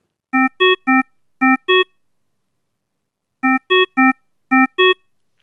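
Hospital medical alarm for artificial perfusion sounds as clean electronic beeps in a group of three followed by two, alternating between two pitches. After a pause the whole pattern repeats, alone and fairly loud.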